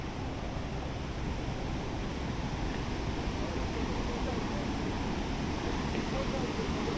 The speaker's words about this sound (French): Au sommet de la chute, un pont permet de rejoindre l'autre rive où d'autres personnes admirent l'eau déferlée.